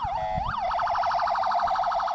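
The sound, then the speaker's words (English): An ambulance siren sounds as ambulances rush to a Gaza beach after an airstrike. It opens with a couple of slow rising and falling wails, then switches to a fast, even warble that continues to the end. “Ambulances rushed to the beach”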